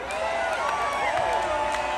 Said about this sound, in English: thank you for your time, your patience, your voices, and your applause